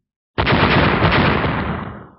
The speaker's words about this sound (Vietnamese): Những tiếng nổ vang lên liên tiếp, đầu của ba con cương thi lập tức biến thành tro